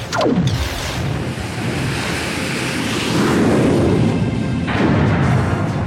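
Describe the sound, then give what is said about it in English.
Sci-fi phaser fire and a hyperdrive engaging: two sharp, sweeping zaps that drop in pitch, one at the start and one near the end, over a loud, continuous rushing roar that swells midway. “Now, fire phasers and engage hyperdrive.”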